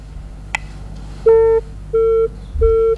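Disconnected tone on a dropped telephone call: a brief click, then three steady, mid-pitched beeps with a buzzy edge, evenly spaced and each lasting about half a second, clear and fairly loud.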